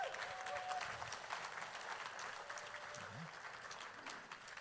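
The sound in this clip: An audience applauds to welcome a speaker's wife onto a stage. The clapping is faint and steady, with a few murmuring voices underneath.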